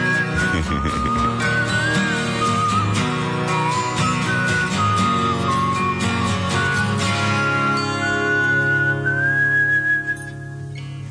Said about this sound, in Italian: E facciamoci una fischiettata insieme, dai.